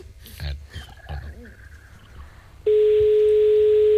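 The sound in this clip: A telephone gives a single steady, unbroken tone while a call is being placed. It starts after some brief talk and holds at one pitch, loud and constant, to the end.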